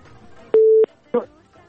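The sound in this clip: A telephone busy tone after a call is cut off: one clear, steady mid-pitched beep lasting about a third of a second, then a shorter, rougher burst, over a faint murmur.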